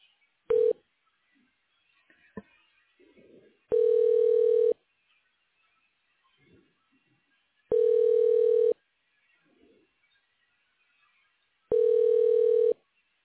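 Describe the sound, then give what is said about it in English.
Telephone tones while redialing a call: a brief tone and a click, then three long, steady, low tones at even intervals with quiet between them. “Sorry, it's not going. I have to dial again.”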